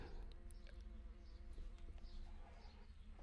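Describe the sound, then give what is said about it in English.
Faint buzzing from a bee or fly loose in a studio, a thin, steady insect drone that carries on unbroken through the whole stretch without voices. “I can hear a bee in the studio, and it's driving me, or a fly or something. It's driving me nuts.”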